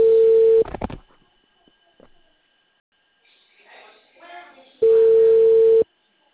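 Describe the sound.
Ringback tone of an outgoing telephone call: two steady, mid-pitched ring tones about four seconds apart, each lasting under a second, with a faint voice in the gap between them.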